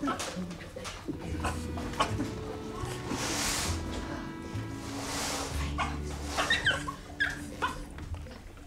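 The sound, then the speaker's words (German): A dog whimpers in a series of soft, high, breathy whines and small yips, rising and falling irregularly, with rustling and low background sounds beneath. “Augenblick, ich muss nur erst den Hund versorgen.”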